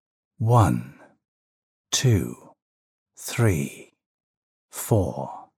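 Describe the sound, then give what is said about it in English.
A person takes four deep, breathy breaths, each a short, airy swell lasting under a second, evenly spaced with silence between them. “Let's do this together. Ready? Inhale.”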